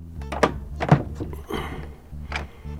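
An unlocked door being opened gives a few dull, faint wooden thunks and clunks at irregular intervals, with quieter rattling handling noise between them.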